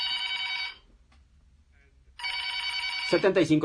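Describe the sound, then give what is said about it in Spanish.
A telephone rings inside a radio studio booth in two bright, trilling bursts separated by a short quiet gap. A voice starts talking over the end of the second ring. “Teléfono en cabina.”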